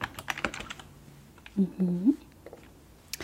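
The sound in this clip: Gentle typing on a computer keyboard at a bed-and-breakfast check-in desk: soft, light key clicks at first, then a short soft-spoken voice, with a last faint click at the end.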